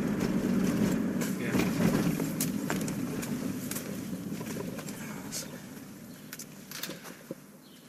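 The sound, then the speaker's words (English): Car driving through Łódź, a steady low rumble of engine and road noise with wind buffeting and scattered light clicks running unbroken throughout. “We're driving to the new Holocaust memorial built by the city of Łódź.”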